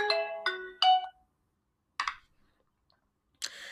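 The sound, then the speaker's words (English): A mobile phone ringtone going off: a few quick melodic beeps, then a pause, a brief tonal burst, another pause and a final burst. “apologies for my phone going off there”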